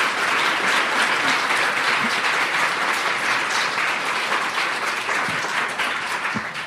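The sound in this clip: Loud, sustained applause from an audience welcoming two speakers to a discussion event on women, politics and power. The dense, even clapping holds steady and eases slightly toward the end.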